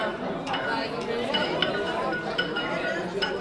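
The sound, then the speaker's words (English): Students mix drug compounds with a mortar and pestle in a pharmacy session, producing repeated light ceramic clinks and taps over a steady murmur of voices and chatter. “That's the sound of students learning how to mix compounds to create drugs using a mortar and pestle.”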